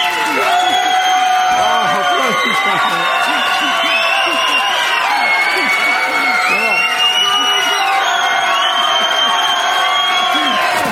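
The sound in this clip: An audience cheers and shouts as a preacher is introduced at a religious gathering. A dense, continuous wall of raised voices with whoops and some clapping runs at a steady loud level throughout.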